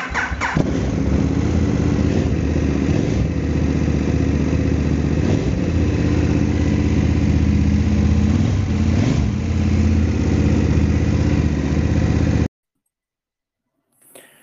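KTM motorcycle engine running with a loud, steady idle rumble for about twelve seconds, then cutting off abruptly, leaving near silence with a faint brief sound at the end.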